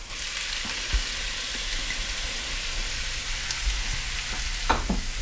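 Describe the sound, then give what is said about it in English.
Minced onions sizzle as they fry in a pan with ginger, making a steady, loud, hissing crackle. A few soft knocks from stirring break through near the end. “And into that I'm also going to add in our minced onions.”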